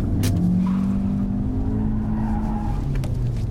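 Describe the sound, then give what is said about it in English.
A car spins round in a car park with its tires skidding: a loud, sustained tire squeal over a revving engine, the squeal holding a steady whine before shifting lower near the end. “spins the car round to face it.”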